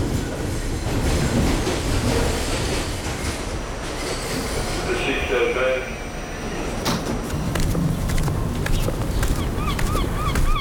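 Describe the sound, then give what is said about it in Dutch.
A subway train rides along the tracks toward Brooklyn in New York, producing a loud, continuous rumble and rattle throughout. Higher metallic wheel squeals appear in the later seconds. “Ik zit in een metro naar Brooklyn om heel bijzondere stadsgenoten te gaan opzoeken.”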